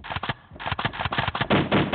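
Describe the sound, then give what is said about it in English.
A gunfire sound effect fires rapid, loud shots in quick succession, with short gaps between bursts, then merges into a denser, more continuous rattle at the end. “Shots fired.”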